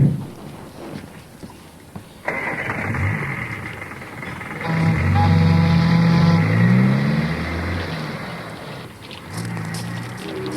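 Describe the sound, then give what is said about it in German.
A car driving away along back roads: its engine note enters abruptly, swells into a louder, rising growl in the middle, then gradually fades off. “Mist, die sind mit ihrem Wagen auf Nebenwegen entwischt.”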